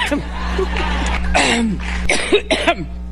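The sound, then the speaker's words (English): Coughing from an elderly woman, a few harsh, raspy bursts clustered near the end, over a steady low hum, with a voice faintly present earlier. “It's such an old lady cough.”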